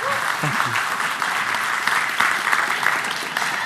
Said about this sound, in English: But would you guys put your hands together, please, and welcome Gary Thomas.